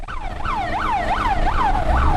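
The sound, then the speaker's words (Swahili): A fire engine siren sounds while crews spray water on still-burning market stalls at Kamenge market in Bujumbura. It gives a loud, repeated wail, each cycle sweeping up quickly and sliding back down, over a low rumbling background. “ni mngurumo wa gari za kuzima moto zilizokuwa zikipuliza maji kuzima vibanda vilivyokuwa bado vikiwaka moto katika soko hilo la Kamenge.”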